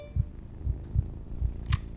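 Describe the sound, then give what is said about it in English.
A pounding heartbeat in someone overheated and feeling unwell: five deep, low, muffled thumps at a slightly uneven pace, heard alone with no talk. “Why was my heart pounding like that?”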